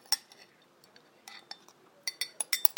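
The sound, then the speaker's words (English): A spoon clinks faintly against a small cup as someone eats coffee froth: many light, bright taps, sparse at first and then coming quicker near the end. “I did that one very nicely because it had froth at the top and froth at the bottom. And I'm eating it with a spoon.”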